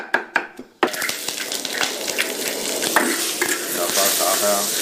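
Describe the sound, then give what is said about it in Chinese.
Diced taro and shiitake mushrooms stir-frying in a hot pan: a few sharp clicks, then a loud, steady sizzle with repeated scraping stirs running through the rest. “翻炒至五成熟”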